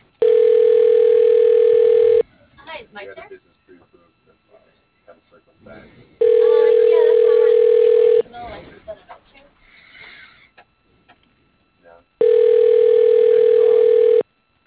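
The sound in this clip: Steady telephone line tone plays while a call is being transferred: three sustained, even bursts of about two seconds each, with quieter automated talk in the gaps between them.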